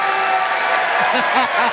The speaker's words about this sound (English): Yes, we can clap for the correct answer.